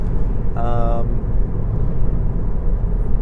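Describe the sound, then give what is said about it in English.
Constant low rumble of a Tesla car driving over a bumpy road on a Christmas Day run, with a short voice near the start. “The bumpy road here. Oh my goodness. I gotta concentrate on my driving.”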